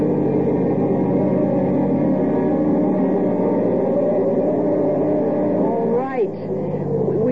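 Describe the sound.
Car driving through heavy, falling snow toward a lake, its engine a steady low drone with a brief dip near the end.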